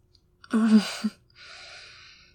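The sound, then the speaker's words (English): A deep breath: a gasping, partly voiced inhale with a brief moan-like tone, followed by a soft, steady, breathy exhale. The whole sound is faint. “Okay, now, take a deep breath.”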